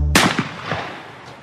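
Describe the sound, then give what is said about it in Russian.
A single gunshot: a sharp, loud crack that breaks in after a low hum, followed by a long echoing tail that dies away over about a second. “и тот же час выстрел прозвучал”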